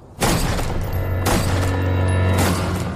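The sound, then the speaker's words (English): Shotgun blasts in a film scene: three sharp, loud booming shots spaced about a second apart, each cutting through a steady low sustained tone that runs underneath. “And it's just like cutting to the shotgun going off.”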